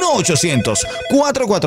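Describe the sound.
A telephone rings right after a number is dialed, a brief warbling ring heard with a voice over it, loud and lasting under two seconds.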